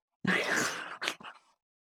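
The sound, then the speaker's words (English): A person groans: one long, breathy vocal groan, followed by two shorter, fading exhalations, quiet and alone. “I'm groaning.”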